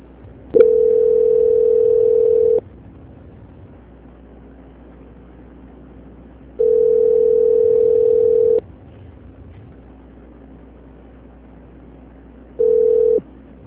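Telephone call-transfer tone: a steady low electronic beep sounding in three bursts of about two seconds each, separated by longer gaps, the last cut short, with faint line hiss between.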